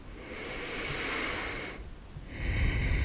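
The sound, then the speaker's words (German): A deep, slow breath in and out during a guided morning meditation. A long, airy breath swells and fades, and after a brief pause a second breath follows. “Dann atme hier nochmal tief ein und aus.”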